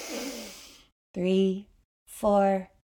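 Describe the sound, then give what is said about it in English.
A deep breath drawn in during a guided breathing exercise: one long, airy inhalation lasting nearly a second. After a pause, a voice speaks twice. “Breathe in.”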